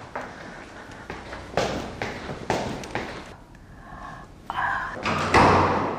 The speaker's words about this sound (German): So, jetzt werde ich mal hier die Treppen hochsteigen.